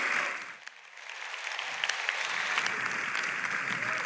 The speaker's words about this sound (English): So ALC, would you do me a favor? Would you stand to your feet? Come on, up on your feet, put your hands together, and let's welcome Pastor Ben as he comes to share God's word.